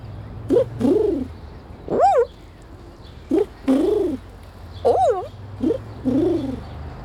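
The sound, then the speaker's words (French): A pigeon or dove coos in a low, soft voice, repeating its rising-and-falling call in several short phrases separated by pauses, alone over a faint background hum. “Il roucoule.”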